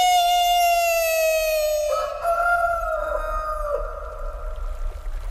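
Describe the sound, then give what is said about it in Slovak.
A rooster crows in one long, strident call lasting several seconds. The tone is strongly harmonic and shifts partway through, and no one talks over it. “Kikiriki!”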